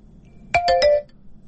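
A telephone rings for a call-in caller, a short electronic ringtone of three quick tonal pulses lasting about half a second, clear and alone against a quiet background.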